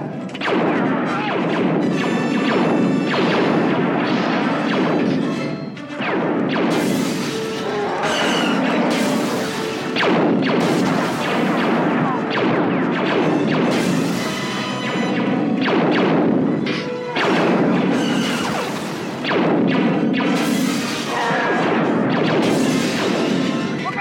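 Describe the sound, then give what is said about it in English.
Blaster fire from a science-fiction film's prison-block shootout, heard in a 2004 DVD audio mix: a dense, loud barrage of many sharp zapping bursts overlapping with booming impacts, nearly continuous with only brief dips. “the Chewie AT-AT blaster sound is all over the place.”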